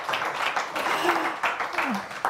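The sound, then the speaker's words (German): Applause from an audience at a stage event as a guest is called up to the front, with steady clapping running throughout and voices calling out over it. “Komm zu uns nach vorne und der Applaus hält, bis du die Schlange durchläufst.”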